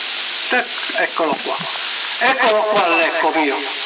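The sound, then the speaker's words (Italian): A voice carried over a CB radio on the 27 MHz band with an echo effect applied, thin and band-limited speech over a constant sizzling hiss of static. “Eccolo qua l'eco mio. Ok, eccolo qua, anche io sono con l'eco, provo a farla girare un pochino con l'eco.”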